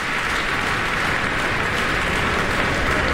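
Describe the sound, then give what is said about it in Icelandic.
Applause from a packed concert audience in Eldborg hall at Harpa as the conductor walks onstage: dense, steady clapping that holds at an even level throughout. “og það fagnað áfram í smekkfullri Eldborg Hörpu og hér kemur Eva Ollikainen inn á sviðið henni fagnað bæði á sviðinu og”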